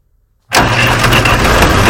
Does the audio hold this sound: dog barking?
no